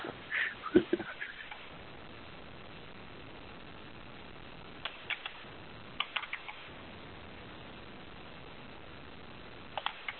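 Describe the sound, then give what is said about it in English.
Computer keyboard typing comes in a few short, faint clusters of quick clicks separated by quiet pauses. “Sorry, I was typing to Avery, I'm not one of those people that can actually type one thing and use my ears at the same time.”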